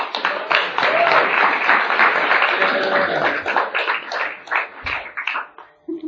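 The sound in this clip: Applause from an audience at a recovery support-group meeting, welcoming a speaker: dense, steady clapping that holds loud for several seconds, then thins into looser claps and fades near the end.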